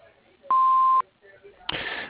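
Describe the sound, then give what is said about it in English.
Answering machine tone before a message: a single steady electronic beep lasting about half a second, followed by a short pause and then a burst of noise. “We are not able to take your phone call at this time, so please leave us a message after the tone.”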